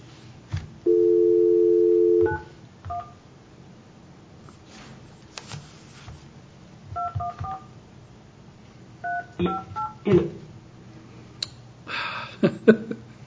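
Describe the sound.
Telephone touch-tone dialing: a steady dial tone hums for over a second, then many short beeping keypad tones follow in an irregular sequence, some in quick clusters and others spaced apart.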